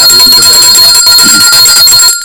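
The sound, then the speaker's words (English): A bright, high-pitched bell rings loudly on its own in a rapid, continuous trill of repeated strikes, then cuts off abruptly just before the end. “I've rung the bell in that regard.”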